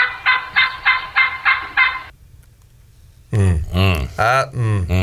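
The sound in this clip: Young male turkey (jake) gobbling, a rapid rattling burst of about six pulses, then a pause before a second, louder stretch of sound.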